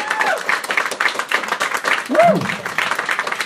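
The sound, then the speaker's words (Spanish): Audience applause at a live Star Wars comic convention panel, many rapid claps forming a loud, continuous patter, with a brief whoop-like vocal sound rising and falling partway through. “¡Fuerte aplauso!”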